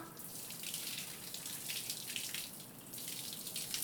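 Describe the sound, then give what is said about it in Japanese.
Running water pours steadily while hair is rinsed and the scalp is massaged, a continuous hissing splash with no breaks and no talk. “頭皮は少しマッサージしながら流して、髪の毛スルスルってして気持ちいい。”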